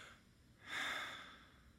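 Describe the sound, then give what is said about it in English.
A deep cleansing breath, a single airy breath that rises and slowly eases off over a steady, faint background hiss. “Everybody take a deep breath right now. Cleansing breath, ready? Now.”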